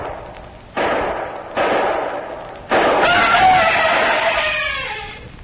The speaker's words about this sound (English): No, wait, Mr. Simmons. Wait till he empties the gun.